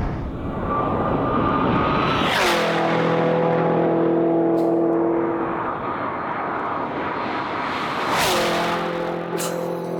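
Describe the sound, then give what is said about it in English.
Hennessy Exorcist 1,000-horsepower Camaro engine revving, a loud, continuous roar with two sharp throttle blips whose pitch drops back after each burst. “Hennessy came out with the 1,000 horsepower Exorcist. Well, how does this sound?”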